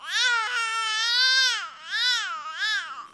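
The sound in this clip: An infant cries in one continuous, high-pitched utterance shaped into four melodic arcs, each rising and falling in pitch, with a strongly harmonic, voiced tone and no other voices.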